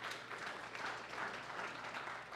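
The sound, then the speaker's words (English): Brief, half-hearted clapping from a church audience during a sermon, a subdued, steady patter of hands with no voices. “that was a half clap, so I'll take it as a no clap”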